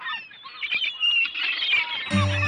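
Seagulls call in Hong Kong, with many high, squawky overlapping cries throughout, before a steady low droning tone with strong harmonics joins near the end.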